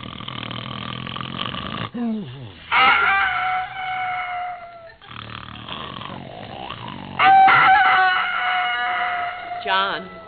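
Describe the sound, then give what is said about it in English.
A rooster crows on a farm in the early morning, giving two long, loud, harmonic calls that rise and hold before trailing off, with quieter rustling sounds between them. “The rooster is crowing.”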